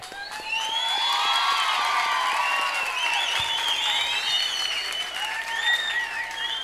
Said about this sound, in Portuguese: Agora, vocês que merecem palmas.